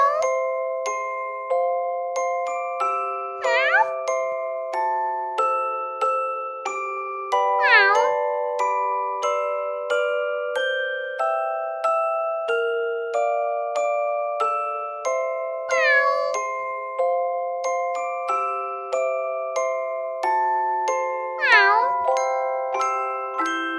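Meows from small, friendly kittens: a few high, swooping cries recur over a steady, bouncy melody of sustained tones, with no talk.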